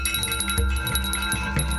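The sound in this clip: A bright bell chime, offered as the sound of a key, rings with sustained high overtones and a few soft repeated strikes over a low hum.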